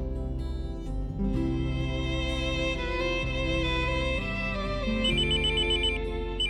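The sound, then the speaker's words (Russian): A mobile phone ringtone, rapid repeating high beeps, cuts in over the last second and a half of steady music from a car stereo, partly masked by the song. “У меня зазвонил мобильный, и тут же умненькая магнитола уменьшила звук.”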